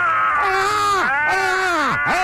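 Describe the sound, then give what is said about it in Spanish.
Two people scream together to vent their anger over a football injustice. The loud, sustained, harmonic wails repeatedly swoop sharply down in pitch and then rise again. “Vamos a gritar los dos para desahogarnos por esta injusticia. ¡Gritemos!”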